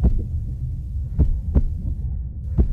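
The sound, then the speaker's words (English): A nurse's heartbeat after being shouted at, threatened and grabbed: a few low, dull thumps over a steady throbbing hum, with no voices. “This is the sound of a nurse's heart rate after they were shouted at, threatened,”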